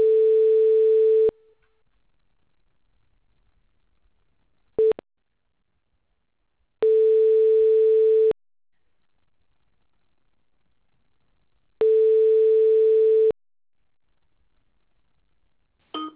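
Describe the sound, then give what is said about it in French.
French ringback tone heard while an automated company phone menu transfers a call: three steady, mid-pitched beeps of about one and a half seconds each, separated by long silences, with short clicks in between and at the end. “Je transfère votre appel.”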